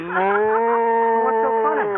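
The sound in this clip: A cow moos in one long, sustained, low bellow with rich harmonics and slight pitch wavering, loud and alone for about two seconds.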